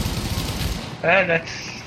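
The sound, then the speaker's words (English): Rapid automatic gunfire from video game guns with heavy recoil rattles in a dense burst through the first half, then a voice breaks in loudly afterward. “The recoil on these guns is insane.”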